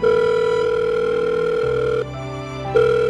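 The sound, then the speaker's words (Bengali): A steady electronic telephone tone sounds on a call line while the phone goes unanswered. It drops to a quieter, lower pattern for under a second and then returns at full level. “পিয়ালির ফোনটা বেজে বেজে থেমে গেল, কেউ ধরল না।”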